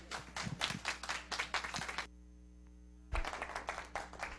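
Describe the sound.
An audience claps to welcome a speaker on stage. Many loud, rhythmic claps stop for about a second of near silence, then burst back in just as strongly.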